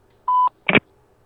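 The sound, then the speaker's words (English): Voicemail beep: a short, steady, clean electronic tone, then a brief, harsher burst of tone after a small gap, with silence around both. “You have reached the voicemail box for Midoriya Izuku. Please leave your message after the tone.”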